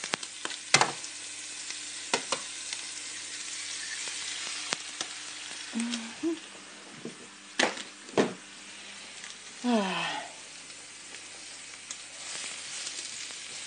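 An egg frying in a pan gives a steady, even sizzle, a bright hiss that runs throughout with a few sharper pops and crackles rising above it.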